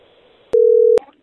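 Telephone tone after a dropped call: a single loud, steady, mid-pitched beep lasting about half a second, with faint line noise before and after it.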